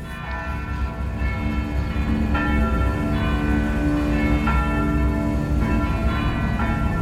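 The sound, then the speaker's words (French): Church bells at a convent in Guernica ring at full peal as an air-raid alarm on 27 April 1937. The sound is a loud, continuous wash of overlapping clangs with fresh strikes roughly every second and long, ringing tones. “Il est 16h30, ce 27 avril 1937, lorsque les cloches se mettent à sonner à toute volée.”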